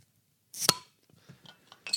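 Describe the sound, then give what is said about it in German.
A beer bottle is opened with an opener: one sharp glassy pop-clink stands out, followed by a few faint clinks and rattles of glass and metal. “Aber jetzt müssen wir uns halt irgendwie vom Mikro wegbewegen, um das Bier aufzumachen. Ja. Also, ja. Wir kriegen das hin. Genau. Mal gucken, ob man trotzdem irgendwie einen Plöpp-Sound hier dran kriegt.”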